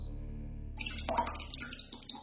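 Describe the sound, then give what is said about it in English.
Bath water sloshing in a bathtub, a brief soft swirl and splash of liquid with low, watery movement that grows slightly busier toward the end. “As I try to soak away my discomfort in my Desert Essence Relaxing Awapui Body Wash Bath Gel, $3.98 for 10 ounces”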